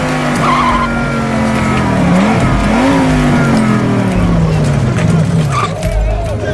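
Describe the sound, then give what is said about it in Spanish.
A car engine roars and revs hard while its tires squeal and skid. The sound is loud and continuous, with the engine pitch rising and falling throughout. “¿Necesitabas un vehículo? ¡Permanezcan todos donde están! ¡Despejen el paso para el personal de seguridad! ¿Qué tan veloz es este auto?”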